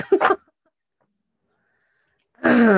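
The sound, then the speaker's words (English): Throat clearing from someone with gunk in their throat: a brief cluster of rough, gravelly bursts, then a stretch of silence before a voice begins speaking. “Excuse me. I've had a very, like, lot of gunk in my throat lately.”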